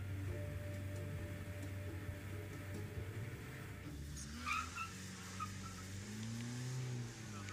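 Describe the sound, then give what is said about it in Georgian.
A car engine labors uphill on a road up the Mombacho volcano, a steady low rumbling drone with continuous road noise, with rising and falling engine tones appearing in the second half. “მადლობა ღმერთს, რომ ასეთი მანქანა მყავს. სხვა ტრანსპორტით აქ ვერ ამოვიდოდი.”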